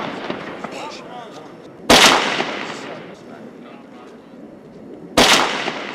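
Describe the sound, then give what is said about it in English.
Two sharp, loud sniper rifle shots are fired by Marine snipers at terrorists guarding the outside of a building during a raid. The shots are a few seconds apart, with a voice talking underneath. “The Marine snipers are forced to take their shots early at the terrorists guarding the outside of the building.”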